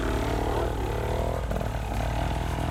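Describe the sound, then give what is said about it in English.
A motorcycle engine runs after being bump started, a steady, loud, low rumble with a constant buzzing tone throughout. “He's got his bike started because he bump started it.”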